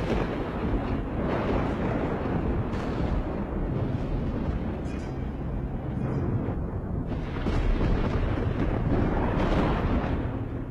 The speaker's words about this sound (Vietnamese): Trên lưng chừng núi, giữa những đám mây mù mịt, sấm sét cứ thế đùng đùng đoàng đoàng.